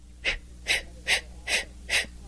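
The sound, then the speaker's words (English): Breath pushed out from the lower abdomen in five short, breathy bursts, evenly spaced and alone, each a soft hiss of air. “you put your hands together in the front of your body and take a long, deep breath and let it out like so”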